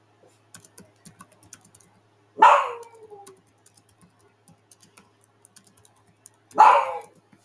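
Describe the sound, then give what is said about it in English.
A dog barks twice, each a single sharp bark several seconds apart, while faint clicking of keyboard typing continues quietly in between. “please don't mind my dog”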